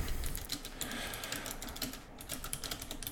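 Fast typing on a computer keyboard, with many quick, irregular key clicks running without a break over a steady background noise.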